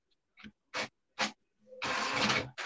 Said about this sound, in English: Like, where's the printer? There we go.